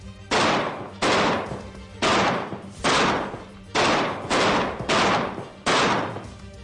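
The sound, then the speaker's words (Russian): Pistol gunfire, eight loud sharp shots fired point-blank at a beast, each crack decaying briefly before the next, spaced slightly unevenly in a quick series. “открыл огонь, нажимая на спусковой крючок часто-часто”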